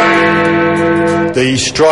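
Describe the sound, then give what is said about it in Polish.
Big Ben, the great bell in London's Westminster clock tower, rings under electrically driven strikes, a deep, loud sustained tone rich in humming overtones, with fresh strikes changing the ring near the end. “Uderzenia dzwonu napędzane są elektrycznie, ale zegar, do którego podłączony jest Big Ben, wciąż nakręcamy ręcznie.”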